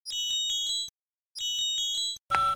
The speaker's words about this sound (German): Ein Anruf geht ein.